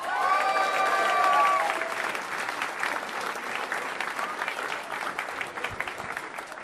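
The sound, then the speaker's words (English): Audience applause welcomes a comedian to the stage: a loud, sustained wash of clapping that stays dense throughout and eases slightly after the first couple of seconds. “Please put your hands together. Welcome to the stage, fantastic Chris Turner.”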